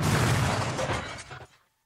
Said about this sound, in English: and you'll see how the mixture explodes.